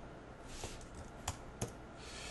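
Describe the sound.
Soft key clicks from typing on a computer keyboard while filling in a web form. A few faint, irregular keystrokes sit over low background hiss, with two slightly sharper taps near the end.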